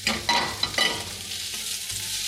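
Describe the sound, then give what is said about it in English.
Garlic sizzles as it hits a pan of translucent onions over medium heat, giving a loud, steady hiss with a few scraping stirs near the start. “then you can start adding the garlic. Heat to medium heat and slide those little flavor boosts into your pan”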